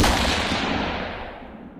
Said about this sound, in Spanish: acaba de recibir un disparo en la cabeza.